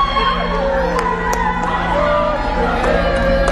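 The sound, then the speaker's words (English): A crowd erupts in loud cheers, whoops and shouts at an airport terminal as a family reunites. The cheering is continuous and dense, with raised voices throughout. “And suddenly, an eruption of cheers.”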